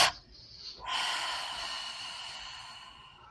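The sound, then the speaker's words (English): Deliberate breathing during a relaxation exercise: a short, sharp intake of air, then a longer, breathy, hissing release that fades out gradually. “Just take a double inhale, tense all of the muscles in your body. Make your face all funny. Double exhale, completely release and relax.”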